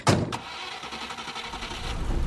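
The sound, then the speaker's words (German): A car engine drives along, the vehicle heading into a national park in Uganda: a steady engine rumble with broad road noise throughout, and a brief sharper knock near the start. “Ich fahre in den Queen Elizabeth Nationalpark.”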